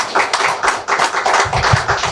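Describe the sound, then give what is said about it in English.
Applause for a government minister at a public event, a loud run of many quick hand claps with no voices over them. “Can give her a round of applause.”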